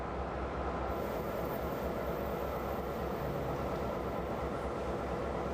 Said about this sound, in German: Hier wird R21 gedreht, die älteste Lok dieses Typs in Taiwan.